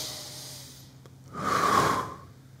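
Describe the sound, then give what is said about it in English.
An audience takes a deep breath together, an airy rush that swells for about a second and then fades. It follows a quiet stretch of faint background hiss. “Okay, can we all do this real quick? Take a deep breath.”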